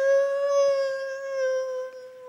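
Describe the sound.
A human voice imitates a neighbourhood dog's sad howl at a passing ambulance: one long, sustained nasal tone of steady pitch with rich overtones, heard alone for over two seconds.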